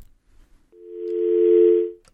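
Telephone dial tone after a dropped call: one steady, even tone that swells in, holds for over a second, then cuts off, with near silence before it.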